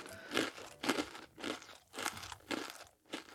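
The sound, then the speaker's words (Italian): Sweet cereal rations being tasted, giving dry chewing crunches in a steady, rhythmic series of several bites. The crunches are moderately loud and stand alone, with no talk. “Sospettoso assaggia una delle razioni che sta preparando il suo fratellino.”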